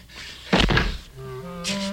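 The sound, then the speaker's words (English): A greenhouse door is slammed shut with one sudden, heavy thud that stands out loudly before fading into a steadier background tone. “He slams the door shut.”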